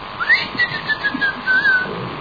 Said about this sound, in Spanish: Se anuncia con un chiflido ensordecedor